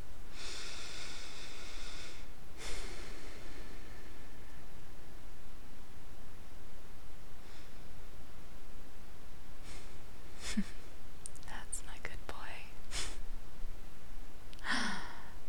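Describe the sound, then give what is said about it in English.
Slow, deep breathing, with one long drawn breath near the start and then softer, sparser breaths and faint mouth sounds over a steady low hiss. “Just take a moment and simply breathe.”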